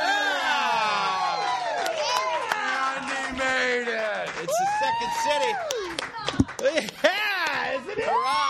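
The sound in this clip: A show audience welcomes the hosts with cheering, high rising and falling whoops and scattered clapping, a lively continuous din with sharper claps near the end.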